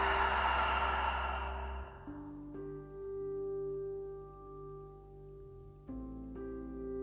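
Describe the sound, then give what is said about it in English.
A long, deep breath released as a breathy sigh that fades over about two seconds, followed by soft, sustained background tones. “I want you to take a nice deep breath in and a breath out.”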